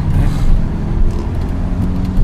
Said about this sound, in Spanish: Buena aceleración. En primera. Y en frío, que claro. Está el coche frío.